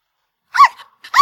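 A puppy that has climbed up a playground slide lets out two sharp, high barks separated by a short gap. The barks are loud and heard alone, with no talk.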